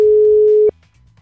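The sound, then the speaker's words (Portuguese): A telephone ringback tone sounds on an outgoing call: one steady, clean mid-pitched beep lasts under a second and stops abruptly, leaving only a faint low hum. “Tô ligando, vai lá. Ih, será que vai atender?”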